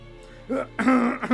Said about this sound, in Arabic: تنحنح الوزير ووضع يده على فمه وهو يكح ليخفي اضطرابه.